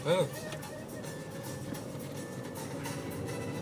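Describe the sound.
A car drives straight along a road, with a steady rumble of engine and road noise that holds even from start to finish.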